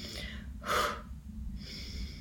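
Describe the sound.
Intense breaths drawn in through the nose in a breathing exercise: a few airy, hissing breaths, with one sharp, loud intake in the middle. Fairly faint overall.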